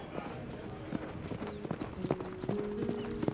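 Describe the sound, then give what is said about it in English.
Hooves of a ridden mare clip-clop as she sets out from a desert town at a hard pace: many quick, sharp hoofbeats in a steady, driving rhythm. “I ride out of Las Pistolas, pushing No Name as hard as she'll go.”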